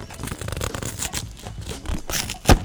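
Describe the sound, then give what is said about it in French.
Crinkly rustling and scraping as a box of packaged microphones is opened, a steady run of papery handling noises that ends in one sharp, loud snap. “Fait qu'on va juste ouvrir la boîte. OK. Attention, je te lance ça. Oup. Yeah. Merci. Donc, micro magique. Je vais ouvrir”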